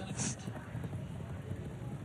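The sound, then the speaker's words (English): Polo ponies' hooves galloping, stopping and turning on a polo field during a match, heard as faint, irregular thudding beats beneath indistinct voices. “We got a great example of what good polo ponies can do. And it's run, stop, and turn.”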